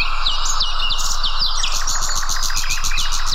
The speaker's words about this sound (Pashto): هلته یې په ځانګړي ډول د مرغانو غږونو ته ورپام کېږي خو داسې ښکاري چې دا اوازونه له طبیعته په کمېدو دي.